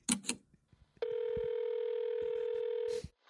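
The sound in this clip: Electronic telephone tone signalling an incoming call to a live call-in show: one steady, buzzy mid-pitched note held for about two seconds, after a few short clicks and noises.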